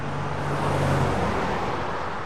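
Road traffic rushes past on a highway crossing a national park, beside makeshift roadside dwellings, as a dense, steady roar of passing vehicles with no voices.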